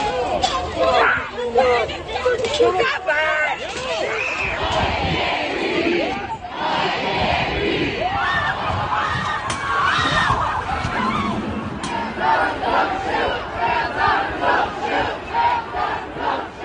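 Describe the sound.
Protest crowds chanting in US cities during the George Floyd protests: a dense mass of shouting voices keeps up loud rhythmic chants, with screams and crowd chatter mixed in throughout.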